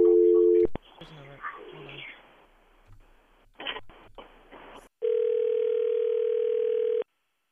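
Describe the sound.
A telephone dial tone sounds while a number is being called: a steady, even tone opens for under a second, then fades into low rustling and a few brief clicks before a louder steady tone holds for about two seconds and cuts off.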